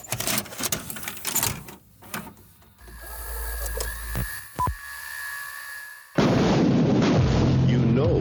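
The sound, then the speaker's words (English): A VHS tape being loaded into a VCR makes a low mechanical whirring with a few sharp clicks and clunks. A loud, dense sound then starts abruptly near the end. “Yeah, throw that in the VHS. Let's put the tape in.”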